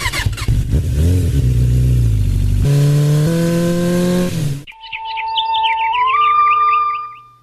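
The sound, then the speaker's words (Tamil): A vehicle engine revs as it drives off, its note climbing in steps as it pulls away, then gives way to bright, repeated birdsong chirps heard alone. “பாப்பா வண்டியில வந்து உட்காரு, நேரம் நம்ம ஊருக்கு வண்டியை விடுப்பா.”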